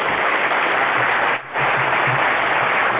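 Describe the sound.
A conference audience applauds to welcome a speaker, a steady, dense clapping that holds throughout with only a brief dip partway.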